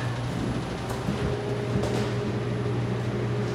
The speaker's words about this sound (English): Now, the one thing I'll have to do, and hopefully this you may have to adjust down, is I have to turn on the hood.